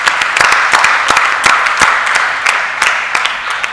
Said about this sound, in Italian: E allora, attraverso un applauso virtuale, però visto che tu sei in quella sede,